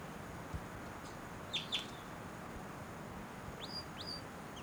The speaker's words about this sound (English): Wild bird, that might be the male in the back, but those flight calls were the female.